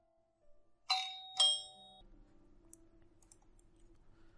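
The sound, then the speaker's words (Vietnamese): A doorbell rings as someone outside presses the button of a house: two bright chime tones, ding then dong, each ringing out briefly before a low steady hum remains. “Tuấn đứng bên ngoài bấm chuông.”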